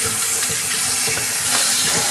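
Running water from a tap rinses raw egg off hands in a kitchen during cooking, a steady, even hiss with no break and no voices.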